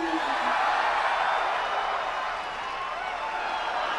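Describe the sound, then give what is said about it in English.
An audience cheers and applauds as the BB-8 droid from Star Wars rolls out onstage, a broad, sustained crowd roar with scattered whoops that eases slightly in the second half. “As he rolls out, you just hear the swell of the audience just get louder and louder. It's just such an incredible moment. Like, everyone kind of cheered, and then it dies down a little bit.”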